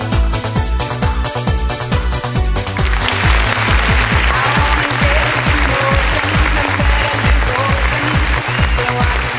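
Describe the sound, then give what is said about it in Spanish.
Studio applause opening a show: a dense, steady clatter swells in partway through and continues loudly to the end over a thumping, rhythmic music beat. “Con estos aplausos estamos dando inicio a un renegado más hoy desde los estudios del Renegado Producciones”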